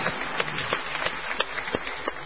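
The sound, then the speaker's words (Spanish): Audience applause at a comedic Circus of Numbers segment: a steady bed of clapping with sharper individual claps standing out at fairly regular intervals, moderately loud throughout. “¡Es increíble! ¡Impecable, señores! ¡Un aplauso! ¡Bienvenidos al Circo de los Números!”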